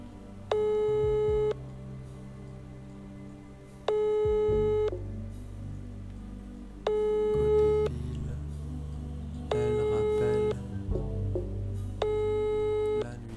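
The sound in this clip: Ringing tone of an unanswered telephone call: five evenly spaced tone bursts, each about a second long, separated by roughly two-second gaps over a low background rumble.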